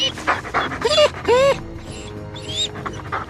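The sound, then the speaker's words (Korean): Dog panting hard from exhaustion after a long run, with quick, breathy pants and a few high-pitched whimpering whines in the middle. “피곤에 지쳐서 숨을 헐떡이면서 다리가 꺾인 나뭇가지처럼 늘어져서 우리로 돌아왔어.”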